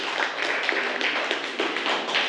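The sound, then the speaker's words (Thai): Students in a classroom clap for themselves at the end of a lesson on choosing pipes. The quick, fairly soft patter of many hands keeps going steadily for the whole stretch. “นักเรียนเก่งมากวันนี้ปรบมือให้ตัวเองอีกครั้งหนึ่งค่ะ”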